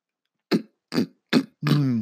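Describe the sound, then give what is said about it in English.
A person clears and scratches their throat: three short, sharp rasping bursts, then one longer, voiced, gravelly rasp. “This is how I scratch my throat.”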